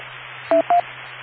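A radio repeater courtesy beep on an amateur radio net: two short, clean electronic tones in quick succession at a similar pitch, loud over a steady static hiss and a low hum.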